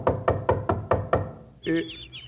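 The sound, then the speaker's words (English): Knocking on a front door: six sharp, evenly spaced raps in quick succession, followed by a sustained tonal sound. “Come on, let's knock at the front door.”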